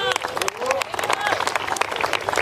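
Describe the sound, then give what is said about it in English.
Applause for a golfer stepping onto the tee at a Beat the Pro Challenge golf event: many scattered, uneven hand claps from onlookers, with people talking over them. “Sur le tee de chez nous, Romain Varone. Bonne chance, Romain. Allez, à des applaudissements.”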